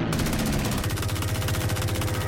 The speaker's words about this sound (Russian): Самолет пикирует к мосту. Начинает стрелять.